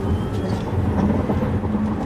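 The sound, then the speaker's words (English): Low, steady rumble inside a Tesla electric car as it speeds up, a dense road and cabin drone with no engine note. “Tesla just announced an update for this car to speed it up to 0 to 60 in 2.8. This doesn't have the update yet, but it's pretty quick.”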